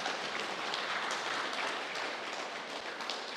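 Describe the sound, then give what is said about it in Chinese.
An audience applauds at a gathering of brothers and sisters. The clapping is faint and steady, a continuous dense patter throughout with no talking over it. “其实你们应该给自己鼓掌的哈。 其实你应该为自己鼓掌。”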